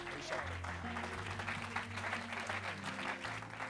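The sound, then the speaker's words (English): Steady applause from a church audience welcoming a preacher to the pulpit at a Sunday night service, an even patter of many hands that holds at a moderate level throughout. “Let's put our hands together and welcome Brother Brennen Ferguson to this pulpit tonight.”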